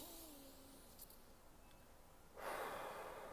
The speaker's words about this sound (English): I recommend you steady your breath in,